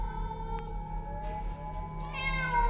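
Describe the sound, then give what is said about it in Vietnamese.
Feral cats calling to each other at night, faint meowing cries with a wavering pitch rising toward the end over a low steady hum. “chỉ có tiếng lá cây xào xạc và tiếng mèo hoang gọi bầy trong đêm văng vẳng.”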